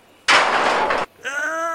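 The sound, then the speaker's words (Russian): A hatch being opened gives a loud, rushing, grinding burst lasting under a second, which cuts off sharply and is followed by a voice. “Иди лучше открой люк, а то жарко. Да, хозяин.”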